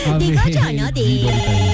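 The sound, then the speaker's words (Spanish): A telephone ringing with an incoming call: a loud, continuous electronic ring with warbling, shifting tones that fills the whole short stretch. “Espérame un segundito, que parece que está entrando una llamada. No, parece que está entrando una llamada.”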